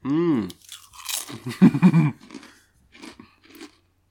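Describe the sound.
Crunching of lattice-cut Seabrook potato crisps being eaten: a short voiced sound, then a loud run of crisp, crackly bites and chews, fading to a few fainter crunches.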